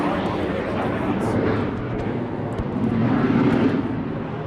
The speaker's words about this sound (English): when a twin-engine jet fighter flies by just a few hundred feet above the ground,